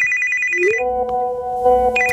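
A mobile phone rings with bright electronic ringtone tones that shift between a high chirping pattern and a lower melodic run of beeps, loud and alone with no talking.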